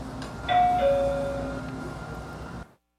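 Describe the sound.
A train's arrival chime announces the next station with two clear tones, a higher note and then a lower one. The chime rings over a steady low rumble that continues briefly before cutting off.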